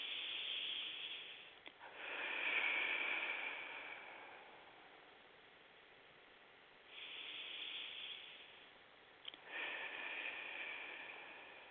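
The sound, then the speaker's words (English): Slow, deep breaths taken during a guided group meditation, heard alone as long, soft, airy rushes lasting a few seconds each, separated by quiet pauses. “Again, two more breaths.”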